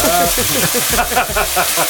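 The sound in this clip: Anchovies sizzling as they fry in a pan, a steady crackling hiss with small spitting pops, while people talk over it.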